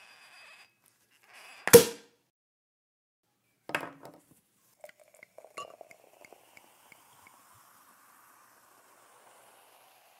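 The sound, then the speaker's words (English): Champagne bottle opening with a sharp pop, followed by a second clattering knock and then a few light, glassy clinks that trail off into near silence. “So let's crack open some bubbly and begin.”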